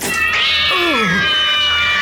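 A cat meows once in a drawn-out call whose pitch slides downward, sounding over a steady tonal hum that runs through the whole clip.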